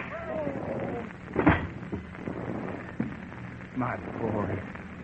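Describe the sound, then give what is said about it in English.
A gunshot in a radio drama: one sharp, loud crack stands out among the voices, followed by a couple of fainter knocks. “Bullet hit him in the shoulder. He'll be all right.”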